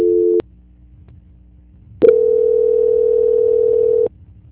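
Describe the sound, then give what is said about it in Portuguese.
Telephone tones during a call transfer: a short steady tone cuts off abruptly, a quiet gap follows, then a longer loud, steady tone plays for about two seconds before stopping. “Vou tentar agora, outra pessoa. Só um minutinho. Transferência.”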